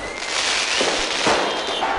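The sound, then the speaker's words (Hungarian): Fireworks go off in Beirut to celebrate the end of the fighting. Loud, dense crackling is punctuated by a couple of sharper bursts. “Tűzijátékkal ünnepelték a harcok végét Beirutban.”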